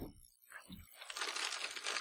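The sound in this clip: A bag crinkles as someone searches for a cough drop: a couple of soft, brief knocks, then a steady, bright crackling rustle that carries on to the end, with no talking.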